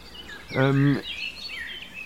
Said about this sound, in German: Was ist denn los mit dieser Krähe? Was hat sie denn?